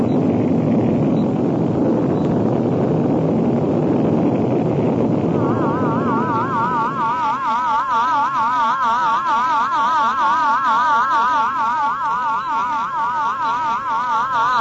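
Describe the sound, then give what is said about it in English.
A rocket blast-off roar in a sci-fi drama: a loud, steady rushing rumble fills several seconds, then thins as a wavering, warbling electronic tone takes over and continues to the end. “9, 8, 7, 6, 5, 4, 3, 2, 1. Blast off!”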